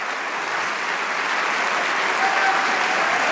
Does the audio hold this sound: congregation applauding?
yes